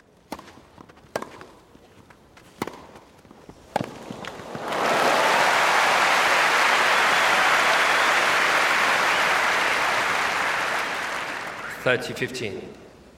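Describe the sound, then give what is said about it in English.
A crowd cheering and applauding at a court sports match, a loud, sustained roar lasting about seven seconds that bursts in after a few sharp knocks, then fades back into more sharp knocks. “So when you're in the middle of a cheering crowd, when it's been recorded well, the surround really involves you in the play, if you like.”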